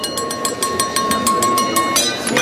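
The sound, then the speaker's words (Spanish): A woman tapping a wine glass at a party: a rapid, even series of many bright clinks over a sustained ringing tone that stops shortly before the end. “Una mujer golpea una copa en una fiesta.”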